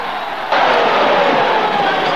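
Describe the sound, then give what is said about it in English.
Roar of an enormous American football stadium crowd doing a Mexican wave: a dense, steady wash of crowd noise that jumps suddenly louder partway through and then holds at that level. “An American football match. The enormous audience in the auditorium do a Mexican wave.”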